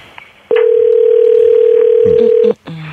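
A telephone ringback tone while a call is placed: one loud, steady, mid-pitched tone lasting about two seconds, starting and stopping abruptly, with faint background noise around it.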